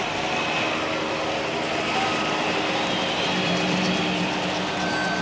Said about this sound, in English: We apologize for the noise of the choppity-choppity, but it seems there are a few cars blocking the road, so we're flying everybody in.